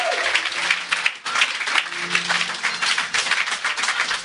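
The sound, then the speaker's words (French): A church audience applauds and cheers in praise. A few voices ring out over the dense, loud clapping, which swells and dips briefly before carrying on strongly. “Est-ce qu'on peut acclamer le Seigneur? Acclamons très fort le Seigneur.”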